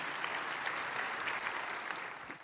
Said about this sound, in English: So give her a big hand, if you will, this morning.